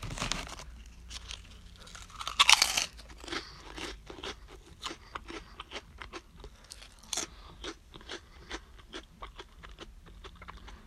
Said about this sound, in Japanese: このふわりふわりエビ味、えー、食べてみたいと思います